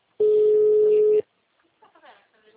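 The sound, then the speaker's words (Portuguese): A steady ringback tone sounds once, lasting about a second, during an outgoing phone call to a client. Faint talk follows after it. “Tá ligando, sim. Tá chamando.”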